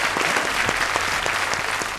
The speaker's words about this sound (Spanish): Un aplauso para nosotros, como decía que es.